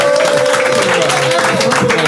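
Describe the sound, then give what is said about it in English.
Audience at a comedy show applauding: dense, continuous clapping with voices mixed in, loud and sustained through the short stretch. “Give me some round of applause, guys.”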